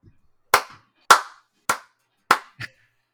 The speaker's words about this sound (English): Don't clap. Don't clap.